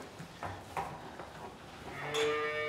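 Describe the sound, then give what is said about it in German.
A cow mooing in a barn calving pen, a heavily pregnant cow near calving. A few soft knocks and shuffles come first, then a loud, drawn-out, low moo fills the final second. “Kuh Pippa bekommt ihren Kreissaal hergerichtet.”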